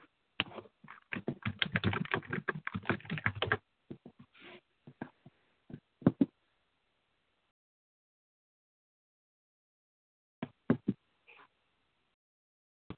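Typing on a computer keyboard while searching for a table of nations: a quick, dense burst of keystrokes, then scattered single clicks, a long silence, and a few final taps, all fairly faint.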